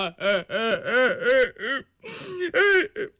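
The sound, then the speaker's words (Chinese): A storyteller's voice imitates a man crying: a run of loud, wavering sobbing wails that bend up and down in pitch, in many short bursts with a brief pause midway. “他哭了。”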